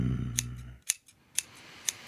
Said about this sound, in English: Trim those nice fine buds up.